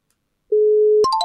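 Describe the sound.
Telephone tone after a call is hung up: a steady low tone of about half a second, then a click and a few short higher beeps at stepped pitches, all loud and clear.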